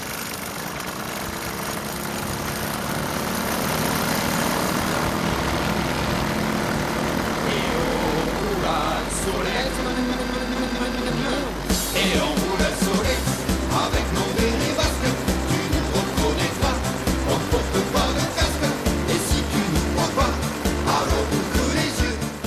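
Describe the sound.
Solex moped engines setting off at midday after rain: a steady, even engine drone at first, then a louder, rhythmic puttering of the small motors takes over and continues to the end.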